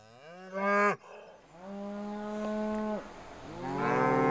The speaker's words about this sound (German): Noch weicht das Kalb der Mutterkuh nicht von der Seite.